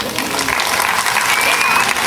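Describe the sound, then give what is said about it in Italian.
Applause from an audience welcoming a family act of two singing fathers, a dense, steady clapping that fills the whole clip without a break. “Un applauso.”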